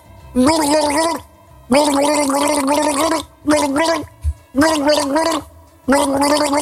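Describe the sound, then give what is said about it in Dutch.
A person gargles the melody of a pop song, bubbling voiced tones rising and falling in several sung phrases separated by short gaps, with a brief gurgle in one pause. “Ja, precies, want er werd gegorgeld en jij hebt meteen in de gaten gehad welke plaat het was.”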